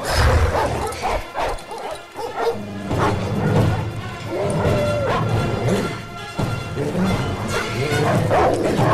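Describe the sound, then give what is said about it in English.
Frenzied dogs bark, yip and snarl while pushing into a garage, mixed with sharp crashing and banging. Many loud, overlapping barks come in a chaotic, nearly continuous burst. “The dogs push in through the gaps in the garage doors.”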